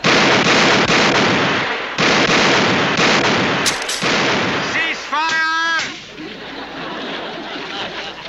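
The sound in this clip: Loud, sustained gunfire from a volley fired on command fills about six seconds in rapid, dense bursts, then breaks off and fades to a quieter background, with a brief shouted voice near the end of the firing.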